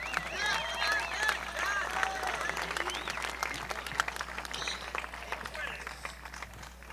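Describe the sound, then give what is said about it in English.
Audience applause for country singers Johnny Cash and Willie Nelson as they take the stage, sustained clapping from a large crowd with voices over it, tapering off gradually. “And we'd like you to really make welcome now on the stage tonight, Johnny Cash, Willie Nelson. Give them a nice hand.”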